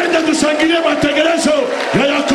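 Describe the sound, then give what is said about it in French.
A church audience loudly acclaiming, a dense, sustained wash of many shouting and cheering voices that holds steady in loudness throughout. “Je voudrais qu'on acclame le programme de Jacob.”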